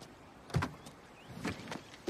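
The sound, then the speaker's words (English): Short car door clunks and clicks as a driver gets out of a car that has just pulled up, a few soft knocks over a faint, low background. “He looks up at a car approaching. Lucy drives up and gets out.”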